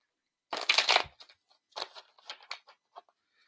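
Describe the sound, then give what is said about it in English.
A card is pulled from an oracle card deck, starting with a brisk papery swish and followed by a few light taps and rustles that grow sparse, quiet and alone. “I'm apparently just stuck on this deck, so here we go. I'm also going to pull a card for Joni.”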